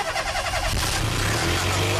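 A car engine turns over and runs with the bonnet open, giving a dense, rough, mid-pitched mechanical roar that stays loud and steady throughout.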